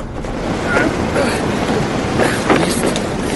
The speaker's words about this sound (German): Im Moment sitze ich auf der Ladefläche eines Transporters, der ach, keine Ahnung, wohin fährt.